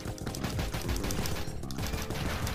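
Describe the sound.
Video game gunfire and grenades in a pixel art shooter, a loud, dense clatter of rapid shots that keeps going without pause.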